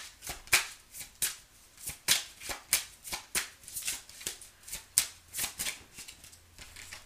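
A deck of tarot cards is shuffled over and over, a long run of quick papery riffles and soft flutters with a rapid, uneven rhythm, fairly quiet throughout and with no talk.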